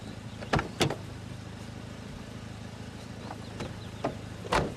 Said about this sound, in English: Chris walks around to the driver's side door.